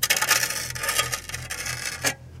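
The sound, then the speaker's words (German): Soil is scraped away by hand around a buried metal object, giving many quick, rough scratching strokes in an uneven rhythm that stop abruptly near the end. “Nee, ich versuche da mal ein bisschen mehr Erde wegzukratzen.”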